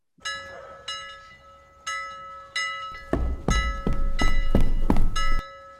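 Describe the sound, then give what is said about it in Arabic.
A harbour bell at a fishing port rings an alarm for an accident in a stage play. Many steady clanging strikes leave sustained metallic ringing tones and grow heavier and louder in the second half, with deep thuds under each strike. “ده صوت جرس المينا، ده معناه ان في حادثة حصلت وفي واحد مصاب.”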